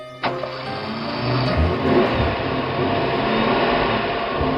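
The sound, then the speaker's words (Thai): A car drives along, its engine and tyres giving a steady, even drone of road noise that starts just after a brief click and holds at a constant level throughout. “นายทองคำก็ขับรถไปเรื่อย ๆ คุยกันไป”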